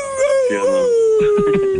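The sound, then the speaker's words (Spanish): A human voice imitates a wolf howl: one long, smooth, clear tone that glides gently downward. Other voices talk over its closing part. “Entre más redonda es la luna, más aúlla el lobo.”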